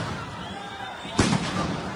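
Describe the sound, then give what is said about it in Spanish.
A police stun grenade goes off at a street protest in Plaza Murillo Toro, Ibagué: one sharp, loud blast cuts through steady background noise and voices, then decays quickly. “la UNDEMO de la Policía Metropolitana de Ibagué intervino al final de las movilizaciones en la Plaza Murillo Toro con bombas aturdidoras.”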